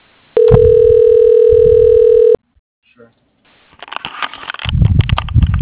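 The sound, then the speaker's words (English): Telephone tone during a call transfer while on hold: one sustained, single-pitch tone lasting about two seconds over a voice, followed by a pause and then muffled rustling noise. “Your call is being transferred. Please hold.”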